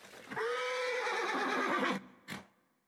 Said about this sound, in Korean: 그때 멀리서 지나가던 지붕 없는 이륜 경마차가 멈춘다.